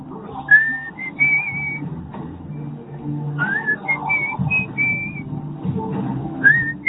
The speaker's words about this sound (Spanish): Le metió silbido y todo, ¿eh?